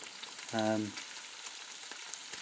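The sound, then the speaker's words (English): Small beef burgers fry in a pan, giving a faint, steady sizzle and crackle, with a brief tonal hum cutting in once early on before the sizzling carries on alone. “And you can see they're like little beef burgers. So they're cooking away.”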